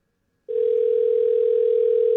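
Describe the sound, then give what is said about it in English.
A telephone call connecting produces a dial tone that starts abruptly after a short silence and then holds one steady, loud, unwavering pitch until the end. “If you are texting in over the weekend, check your phone. We could be calling you right now.”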